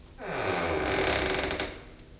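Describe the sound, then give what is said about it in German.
A door creaks slowly open in a dramatized scene: one drawn-out, rasping creak swells quickly, holds for well over a second, then fades, with no voices over it. “Ich öffne jetzt die Tür.”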